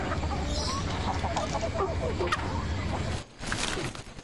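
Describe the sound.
Chickens clucking: a run of short, choppy clucks over a steady background hum, followed by a brief lull near the end.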